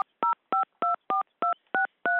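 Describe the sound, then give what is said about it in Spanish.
Touch-tone telephone keypad dialling a number: a quick series of seven clear, evenly spaced two-note beeps of equal loudness, with silence between them. “Llamo a la ginecóloga de Paula Bonet, Sofía Fournier.”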